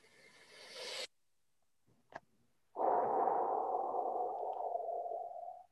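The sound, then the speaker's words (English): A big, deep breath: a sustained airy rush lasting about three seconds after a short silence, with a shorter breathy burst and a faint click before it. “That was a big, deep breath.”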